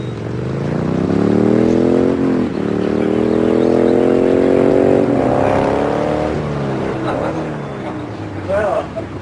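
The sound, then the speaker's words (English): A motorcycle carrying two riders arrives, its engine droning loudly with a pitch that climbs, dips briefly, then climbs again before the sound settles and breaks up near the end. “Later, Patrick and a dark-haired woman arrive on a motorcycle.”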